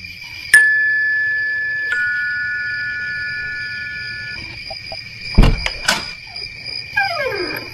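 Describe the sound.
A doorbell chime rings at the front door of a British-style hill mansion. Two bright, clear tones strike one after the other and linger as they slowly fade, followed later by a few dull thuds.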